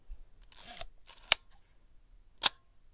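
A Leica camera shutter fires with two sharp, crisp mechanical clicks about a second apart. Softer rustling handling noises come before them against otherwise quiet surroundings.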